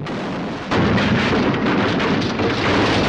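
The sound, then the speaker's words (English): Heavy naval gunfire on the warship Amethyst under attack as one of its gun turrets is hit: a low rumble breaks into a sudden, loud, sustained roar of blasts. “The Amethyst comes under a fresh onslaught. As the Amethyst returns fire, one of the gun turrets is hit.”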